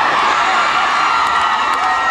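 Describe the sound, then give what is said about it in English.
Crowd cheering together as a group at a live event with a band, a loud, steady, unbroken roar of many voices with scattered whoops mixed in. “You think just because you cheer as a group I'm going to do it?”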